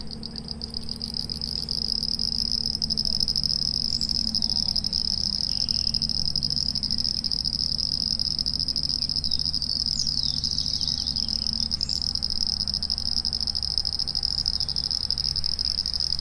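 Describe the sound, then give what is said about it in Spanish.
Crickets and other insects fill a rural soundscape with a dense, shrill, high-pitched chorus that holds steady throughout. Softer croaking, likely frogs, sits underneath, and no voices are heard. “Y en ese lugar donde estoy haciendo mi casa hay otro paisaje sonoro, ¿no? De aves, de animales, también de insectos, digo, de bichos.”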